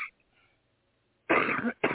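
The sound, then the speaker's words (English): A person coughs twice in quick succession after near silence, first a longer harsh burst, then a shorter one that is cut off at the end. “I think that I have to cough.”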